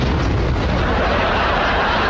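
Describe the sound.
A tire exploding in a loud, continuous roaring blast, with deep rumble and broad hiss sustained across the whole clip rather than one separate crack.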